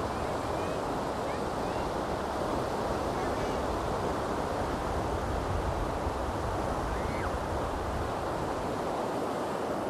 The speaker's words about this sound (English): Tides coming in. What an awesome sound.